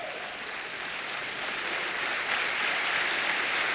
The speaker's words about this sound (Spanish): Dele palmas al Señor.